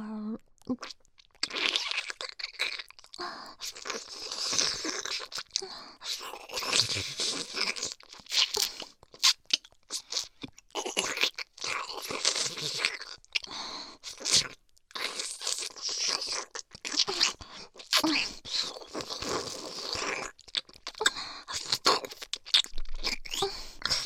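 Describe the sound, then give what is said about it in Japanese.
Wet ear licking and slurping mouth sounds run almost without a break: many crackly, smacking bursts with brief pauses between them, steady and fairly loud throughout, with no talking. “だから、少し舐め方変えるわよ。今度は、耳をすするように。”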